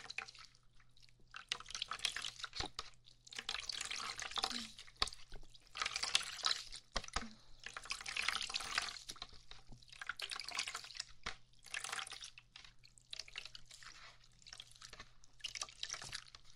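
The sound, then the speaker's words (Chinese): Water running onto hair at a hair salon as it is wetted, coming in repeated hissing bursts with short pauses between them, faint over a low steady hum. “先帮你把头发打湿了。”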